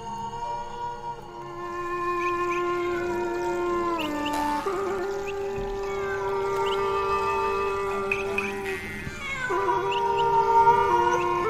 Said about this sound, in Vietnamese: tiếng con mèo vẫn cứ kêu xa dần xa dần, lẫn vào trong đêm tối của núi rừng.